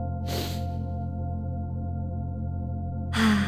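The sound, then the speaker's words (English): A deep inhale at the close of a guided meditation: a soft breathy rush of air near the start over a steady, sustained musical drone, then a second breathy swell begins near the end. “Take a big, enlivening, deep breath in”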